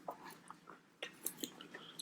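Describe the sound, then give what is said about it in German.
Faint, irregular chewing of a pizza topped with paprika, salami and hard potatoes: scattered soft crunches and moist clicks, with no talk over them. “Die Kartoffeln sind sehr hart auf deiner Pizza. So, wir probieren das jetzt einfach mal.”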